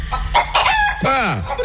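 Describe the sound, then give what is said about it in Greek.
A hen clucking in quick, short bursts, followed by a loud rooster crow whose pitch sweeps downward. “Η κότα ή τα αυγό. Η κότα.”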